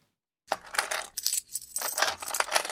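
Coins dropping and jingling, loose cash money, in a few bright metallic bursts of clinks and rattles that come and go over a couple of seconds, with no voices.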